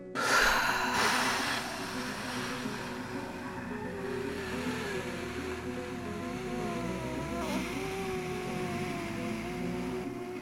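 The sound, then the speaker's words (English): Two people breathe out together in one long, soft exhale lasting about ten seconds, a steady breathy hiss with a slightly stronger puff at the start. “So for the next 10 seconds, we're going to do our part and breathe out.”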